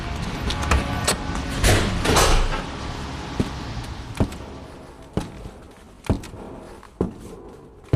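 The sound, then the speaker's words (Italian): The large entrance door of a church, the Maria Lourdes parish in Seebach, opens with a noisy scraping and rumbling at first. A steady series of evenly spaced sharp thuds follows. “Ecco, sono al portone, tempo di varcare la soglia e lasciare dietro di me il rumore, la fretta, il trambusto della città.”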